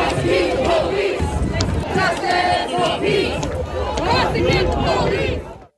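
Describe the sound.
A dense community protest crowd cries out in Minneapolis after the killing of a Black man, with many voices shouting and overlapping loudly and continuously before cutting off at the end.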